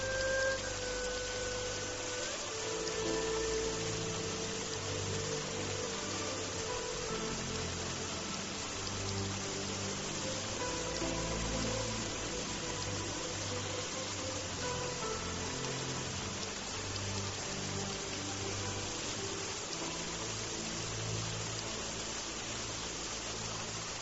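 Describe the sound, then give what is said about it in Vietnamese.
Rain falling steadily, a dense continuous hiss that stays even and unbroken throughout with no voices. “Ngay khi ra ngoài, Trúc Nhiễm lặng lặng khom người đứng trong mưa.”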